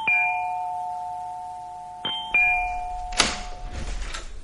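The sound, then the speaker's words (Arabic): A doorbell rings. A long chime tone rings out and slowly fades, then two quicker chimes follow, then a clunk and rustling noise. No one talks. “للأستاذ فؤاد وضربت الجرس”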